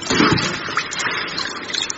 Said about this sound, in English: Watch out for the tidal wave. She's getting in the pool.